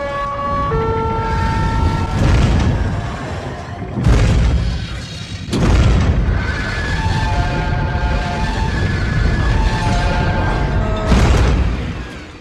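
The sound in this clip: Blast sound effects roll through as a dense wall of loud booming blasts, layered with sweeping siren-like tones and swelling to several heavy peaks.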